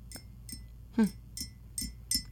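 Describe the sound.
A spoon stirs a drink in a glass, making about six light, quiet clinks at a loose, uneven rhythm.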